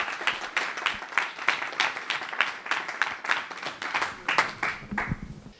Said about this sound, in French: Sous vos applaudissements